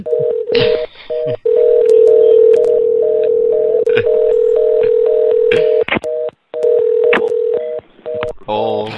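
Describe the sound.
Telephone signals from stuck phone lines: a steady tone chopped into short repeated pulses like a busy signal, with clicks and brief breaks between, and a short garbled burst at the very end.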